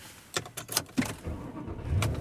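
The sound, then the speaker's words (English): A car, heard as a few sharp clicks and knocks early on, then a low, steady engine rumble that grows slightly fuller toward the end, with no voices. “And I am driving home.”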